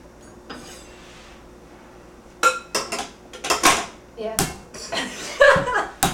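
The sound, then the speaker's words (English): Garlic being crushed with the flat of a knife: a rapid series of sharp slaps and knocks, with people talking around them. “I see there's stuff that's coming off. I'm supposed to hit it. Like with the flat part of the knife.”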